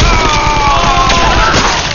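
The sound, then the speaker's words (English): A volley of gunfire pours into an adobe dome, a dense, continuous stretch of loud crackling reports and booms lasting about two seconds. “Torn apart by the incoming fusillade, several of the old Indians in the ring fell over.”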